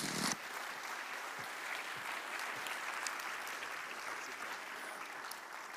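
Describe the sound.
An audience applauds to welcome a guest speaker at a morning church service, with even, steady clapping sustained throughout, fairly quiet and with no talk.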